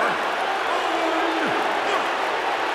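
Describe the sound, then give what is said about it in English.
Crowd booing in a wrestling video game after a pinfall win: a dense, steady wash of crowd noise that holds at an even, loud level for nearly three seconds. “And the fans are booing the shit out of him.”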